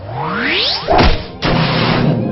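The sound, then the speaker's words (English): A video game power kick attack lands with a heavy crashing impact after a quick rising whoosh, followed by a second burst of noisy, crunching crash that carries on to the end. “Choose a power kick. Hydrich used power kick.”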